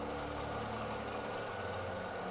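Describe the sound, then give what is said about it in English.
A rotary motor runs with a steady, low mechanical drone and faint vibration, continuous and quiet throughout with no voices. “And I started the rotary motor.”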